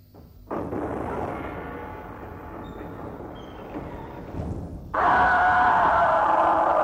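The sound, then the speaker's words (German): A loud scream in a radio drama, said to come from a first bite, bursts in abruptly near the end and holds to the close, after several seconds of steady rumbling background noise. “Hörte sich das nicht eben an wie ein Schrei? Es war einer.”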